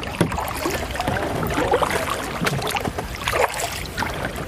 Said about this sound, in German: Oh Gott, da kommt ein Kahn. Hier ist so viel Verkehr